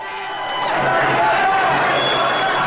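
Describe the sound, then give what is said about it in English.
Crowd of protesters marching out of Wisconsin's state capitol building, a dense roar of cheering and shouting voices that swells over the first second and then holds loud and steady. “That's the sound of protesters marching out of Wisconsin's state capitol building.”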